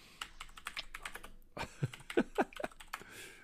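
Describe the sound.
Typing on a computer keyboard: many quiet, rapid key clicks in uneven bursts, a short pause in the middle, then more keystrokes with a few louder taps.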